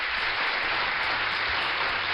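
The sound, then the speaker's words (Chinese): Steady, dense applause from a group in a children's learning session, an even wash of clapping with no talk over it. “好，那我们要送个掌声给我们聪明的子清啊。”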